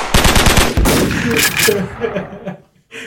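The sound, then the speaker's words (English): A gunfire sound effect opens with a fast burst of rapid shots, machine-gun style, then gives way to a rough, noisy rumble that thins out and drops briefly to near silence before a final noise. “Shots fired.”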